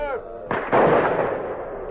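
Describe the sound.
Gunshots from hunters on a river island: two loud blasts in quick succession, the second heavier, trailing into a long rumbling tail after a brief spoken voice.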